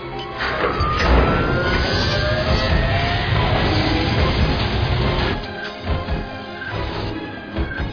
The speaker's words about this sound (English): Take the controls. You keep the speed up so the other rig catches up with us.